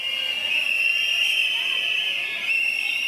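Shrill whistling from preschool education centre employees on a protest walk, a loud, steady high whistle tone held throughout over a faint crowd murmur.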